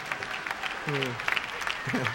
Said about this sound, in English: Thank you for the clap.